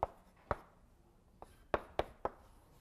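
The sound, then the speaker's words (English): Chalk tapping and scratching on a blackboard as a small graph of nodes and edges is drawn during a lecture on graphs and networks: six sharp, faint taps in an irregular rhythm, with quiet pauses between. “Okay, and I'm going to write down the graph, a graph, so I'm just creating a small graph here.”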